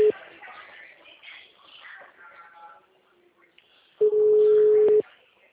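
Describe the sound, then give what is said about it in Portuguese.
An outgoing telephone call rings unanswered: a steady, mid-pitched ringback tone lasts about one second after a stretch of quiet talk, and a brief bit of the same tone is heard at the start. “tá tocando e não atende.”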